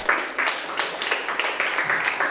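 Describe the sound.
Students in a classroom applaud their classmates with quick, rhythmic clapping that holds a fairly even pulse throughout at moderate loudness.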